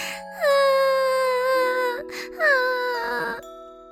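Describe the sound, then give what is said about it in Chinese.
Crying from a character in a children's story about a delivery: two drawn-out wailing cries, each sliding downward in pitch, with a short break between them. “小红说着哭了起来。”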